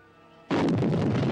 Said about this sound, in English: The explosion makes Challenger drop the egg.